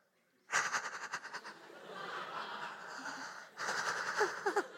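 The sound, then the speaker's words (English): A person imitates heavy breathing held back to stay quiet while hiding after running: a quick run of short, breathy, wheezing puffs, then a longer strained exhale, then another burst of rapid, stifled breaths. “I'm like trying to not breathe as loud. You ever try to not breathe loud when you're trying to be quiet? It's like,”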